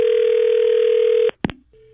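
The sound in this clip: A telephone dial tone hums as a prank call is placed, steady and unbroken for over a second, then breaks off with a couple of sharp clicks before a quieter steady tone returns.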